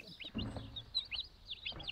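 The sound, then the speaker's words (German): Chicks peep in a nest that has been closed off with grating and is shared with a turkey hen. Many short, high, rising chirps come in quick, uneven bursts, faint over a low soft rumble. “Die bekommt als erstes Küken. Damit die Küken nicht ausreißen, hatte Christine das Nest mit Gittern abgedichtet und kann jetzt nur zuhören.”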